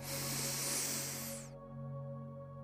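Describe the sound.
A deep breath is drawn in through the nose as a long, airy hiss lasting about a second and a half, then it stops. Steady soft low tones continue underneath.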